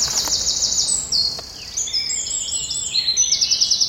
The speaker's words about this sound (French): C'est un tout petit oiseau, tout marron, avec plein de petites rayures, on le reconnaît comme ça. Il a la queue fauve et il chante avec la queue en l'air, juste à côté de nous.